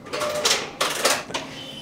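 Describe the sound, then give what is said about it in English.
A Japanese knitting machine runs with rasping, sliding swishes from its carriage, three strong sweeps in quick rhythm over a light mechanical clatter. “So I think the funny thing about knitting is most people in their mind's eye have it as two sort of needles going clack clack and you make something sort of while it's in your lap. But the machine that we're looking at just now is a Japanese machine.”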